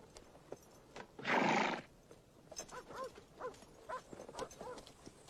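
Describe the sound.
Horses ridden through a canyon, hooves clip-clopping in a steady faint rhythm, with a louder noisy burst early on and several whinny-like calls afterwards.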